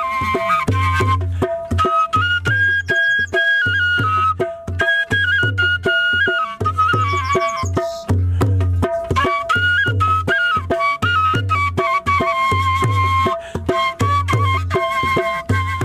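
Shpelai flute playing a flowing, ornamented melody in a mid-to-high register, joined by a steady, regular low pulse beneath that keeps a repeating beat throughout.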